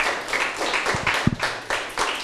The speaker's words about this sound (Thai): เก่งมากเลยนะครับปรบมือให้เพื่อนหน่อยครับ